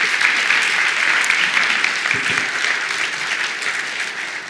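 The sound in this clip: An audience claps to welcome people onto the stage. The applause is loud and dense, then eases slightly in loudness toward the end.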